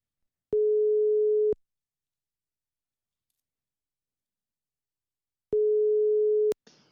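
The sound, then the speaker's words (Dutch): Telephone ringback tone heard while calling someone: two steady one-second beeps at the same mid pitch, separated by about four seconds of silence, followed by a short click at the end. “We gaan er eens bellen.”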